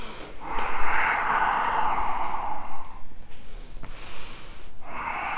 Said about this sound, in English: Breath in. Breath out. Inhale. Exhale.